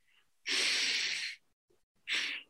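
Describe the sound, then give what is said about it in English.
Breathing in through the nose: two breathy, hissing inhalations, the first long and strong, the second shorter, separated by a brief quiet pause. “So if we do the opposite and breathe through our nose,”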